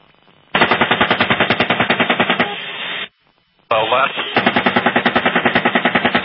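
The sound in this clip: Gunfire from an aircraft-mounted gun: rapid, evenly spaced shots in two long bursts split by a short pause, loud and continuous.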